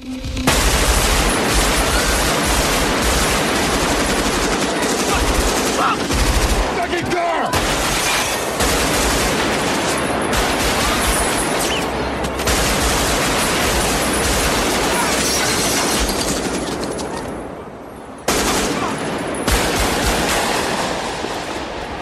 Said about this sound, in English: And then there's a huge shootout. So this is part of that. But just look at the way this shootout is directed.